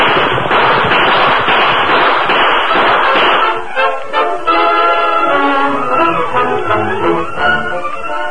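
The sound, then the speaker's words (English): A gunfire volley in a radio-drama shootout with outlaws, shooting from horseback: many rapid, loud, crackling shots pile up in a dense burst over the first half, then give way to quieter tonal sounds. “We'll give them another volley from here. Keep shooting as you ride, Tonto.”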